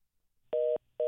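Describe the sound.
A telephone line tone sounds after a caller's line drops on a call-in show. Two loud, steady beeps at a fixed pitch are separated by a short gap, and the second is cut off.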